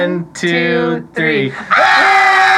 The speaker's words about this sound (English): Pretend like we're in hell and we're being tortured. When do we agree to scream and yelling right now? We'll count it down.